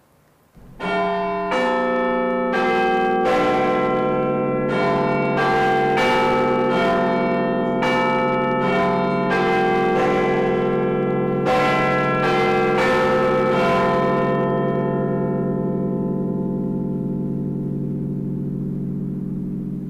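Large bells ring inside a clock tower bell chamber, many heavy overlapping strikes with rich, sustained overtones that merge into a long, slowly fading resonant hum.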